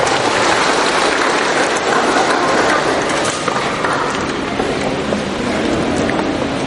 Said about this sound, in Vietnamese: Một tràng pháo tay mời các bạn chúng ta về chỗ.